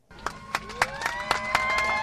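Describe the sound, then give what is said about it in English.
A crowd claps in a steady rhythm, about four claps a second, with voices cheering and rising underneath as AirTran's final Boeing 717 flight takes off from Atlanta's Hartsfield-Jackson International Airport. “Cheers erupted as AirTran's Boeing 717 took off Sunday night from Atlanta's Hartsfield-Jackson International Airport, bound for Tampa.”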